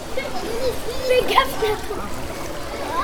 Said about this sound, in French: Le sport, un patrimoine vivant et partagé en Pays de la Loire. Piscine Tournesol à Trélazé.